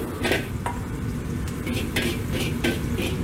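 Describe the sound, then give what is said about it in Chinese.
Stir-frying in a wok after adding salt and MSG: a steady, noisy sizzle runs throughout, broken by several sharp metallic clanks and scrapes as the food is tossed. “锅中加入食用盐3克和味精2克，翻炒均匀之后盛出备用”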